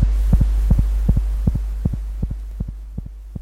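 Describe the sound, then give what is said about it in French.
Heartbeat of a chicken embryo after it was frozen to -196 degrees, a fast, regular run of soft paired thumps over a loud, steady low hum. “Vous entendez en ce moment les battements d'un cœur d'embryon de poulet qui, après avoir été congelé à moins 196 degrés,”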